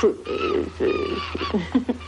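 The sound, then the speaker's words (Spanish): A bird flying about inside a house calls in a string of short, warbling, cooing bursts, moderately loud and close together, with no talk over them. “El pájaro se posa encima de la escoba y él la mete en casa.”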